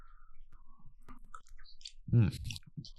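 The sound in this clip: Someone chewing and eating a white dessert, with soft wet clicks and smacks that build to a louder crunching burst near the end.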